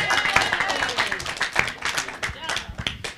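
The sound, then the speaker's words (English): Audience applause, with quick, moderately quiet clapping that runs through the whole clip while people talk over it. “as I go down the line, it doesn't have to get quieter and quieter on the applause here, you know.”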